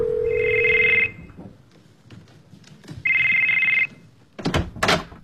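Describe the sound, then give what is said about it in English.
A telephone rings in two bright electronic bursts, each lasting about a second, with a quiet pause between them. Brief, sharp, muffled sounds follow the second ring. “Your phone rang. What? You missed a call. Your phone.”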